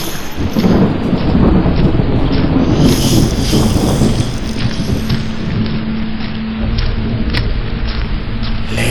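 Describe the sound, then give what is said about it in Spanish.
Rain falls at night on New York City streets as a dense, steady hiss over a deep low rumble like thunder. It stays loud and continuous throughout, with no voices. “Lentamente camino por las calles de Nueva York en una noche de lluvia.”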